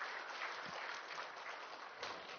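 A church audience claps in praise to God, giving a faint, continuous wash of applause that runs evenly from start to finish without a break.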